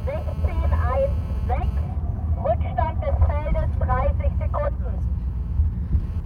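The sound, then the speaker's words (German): Steady low rumble of a moving car, heard from inside the neutral service car driving in a race field near Schleiz. The drone is continuous and unbroken, with a person talking over it throughout. “Ja, ich habe jetzt den Weg gemacht in eins der Fahrzeuge, die hier auf dem Feld fahren. Der neutrale Materialwagen.”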